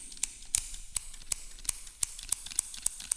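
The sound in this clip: Scissors clipping open and shut: a steady series of many sharp, crisp metallic snips at an even, quick rhythm. The snips are fairly faint and sound alone, with no talk.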